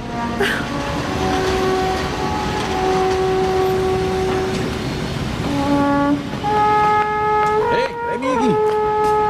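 Train station ambience in Basel: a continuous wash of noise carrying sustained, steady tonal notes that shift pitch partway through, with a wavering horn-like tone near the end.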